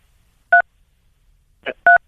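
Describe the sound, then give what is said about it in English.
Telephone keypad dialing tones: two short, steady electronic beeps spaced well apart, with a brief noisy click just before the second beep, against near silence. “we can't hear you. You are dialing on your phone.”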